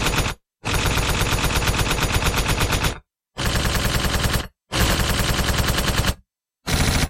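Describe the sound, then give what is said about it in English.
A machine-gun sound effect fires in five rapid bursts. The loud, dense rattles are separated by brief silences, and no voices are heard. “That is me shooting you, and now you're being exploded.”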